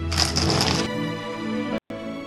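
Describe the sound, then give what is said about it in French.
Plastic packaging of a Playmobil three-soldiers set (ref. 9886) crackles loudly for about a second as it is unboxed, then turns quieter over a steady tonal background, which cuts out briefly near the end. “Allez, on passe au déballage.”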